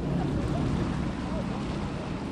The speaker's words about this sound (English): On board, the massive winged sails groan as the boats zigzag between Alcatraz and the Golden Gate Bridge.